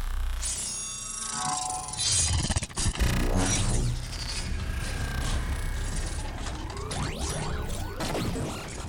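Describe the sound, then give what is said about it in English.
Machinery runs with dense grinding, ratcheting and clinking mechanical noise. It stays loud and busy throughout, with no voices. “The lights brightened and the sound of the machines rose.”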